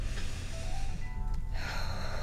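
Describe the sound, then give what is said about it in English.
Deep breathing, air drawn in through the nose and released out through the mouth, heard as a steady, breathy rush of air that swells into a brighter surge near the end, with no talking. “let's start by taking a few deep inhales and exhales”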